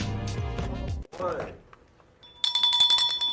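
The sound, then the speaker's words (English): A broken bell in need of glue rings in a quick series of bright, high metallic strikes after a voice speaks briefly and a short rustle passes. “this bell is horrible. And they have no glue to fix my bell.”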